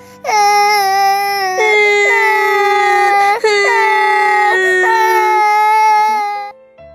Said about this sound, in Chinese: 小蓝和小黄好伤心呀，他们两个哭了，流出了大滴的蓝眼泪和黄眼泪。